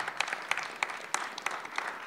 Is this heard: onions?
no